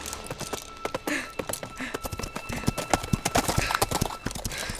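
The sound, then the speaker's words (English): Hooves clip-clop as an old mare is ridden through the streets of Manhattan, with many steady, crisp hoofbeats in an even walking rhythm. “As I rode the old mare down the streets of Manhattan, I knew the trouble I was about to cause.”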